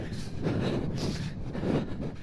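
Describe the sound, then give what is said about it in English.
Wind blowing across a concrete patch among cliffs, buffeting the microphone with a low, rough roar that swells and eases in uneven gusts, with no voices. “Now into the wind again.”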